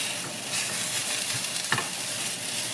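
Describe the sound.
Potatoes and cheese frying in a pan give a steady, hissing sizzle, with one brief stirring scrape partway through.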